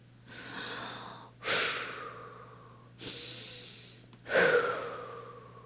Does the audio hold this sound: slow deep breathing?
yes